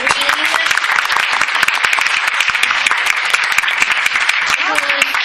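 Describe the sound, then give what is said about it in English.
Loud, dense applause from an audience, with many hands clapping continuously through the whole stretch and voices mixed in. “we need a bigger round of applause. Everybody stand up.”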